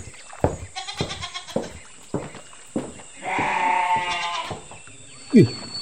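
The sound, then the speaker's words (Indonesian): A goat that has been eating a tree gives a long, quavering bleat, standing out among a few shorter, sharper sounds. “Kambing siapa pula lah ini? Aduh, dimakannya pula lah pohon gini. Kayaknya kambingnya Pak Selamat lah ini.”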